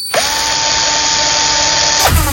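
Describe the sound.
A power drill whirs loudly in one unbroken run, revving up at the start, holding a steady high whine, then winding down just before the end.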